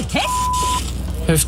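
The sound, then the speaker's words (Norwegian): A jammed photocopier gives a single steady electronic beep, a thin mid-pitched tone lasting about half a second, over a constant low hum while people talk. “Åh, kopimaskinen har hengt seg opp igjen!”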